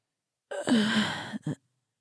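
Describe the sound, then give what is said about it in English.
A man gasps in shock during a fantasy role-play scene: a breathy, voiced intake under a second long, followed by a brief second catch of breath. “a gasp from Prince Dolian.”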